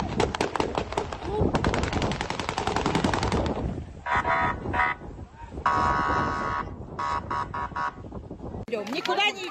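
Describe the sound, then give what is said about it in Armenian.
Gunshots fired into the air by police dispersing a crowd at a protest against military mobilization: a loud run of rapid, dense cracks gives way to shorter bursts and shrill tonal sounds, with voices present throughout. “Իրավապահները մարդկանց ցրելու համար նույնիսկ օդ են կրակել։”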